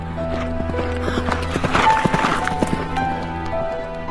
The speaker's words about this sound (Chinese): 大卫从家中逃出之后，骑着马，拼命的向前飞奔。